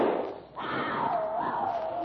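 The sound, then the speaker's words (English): A lion's ear-splitting roar as it charges along a jungle path: a loud, sustained, rough roar that dips briefly near the start, then holds steady and strong to the end. “With an ear-splitting roar, the lion charges.”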